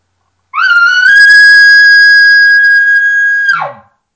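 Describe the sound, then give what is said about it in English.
A double-reed game call marked with red tape, blown gently to draw a bull into answering: one long, loud, steady whistling note that slides up at the start and drops away at the end, heard alone. “You're just trying to get a bull to sound off and answer back to you. It's going to sound something like this.”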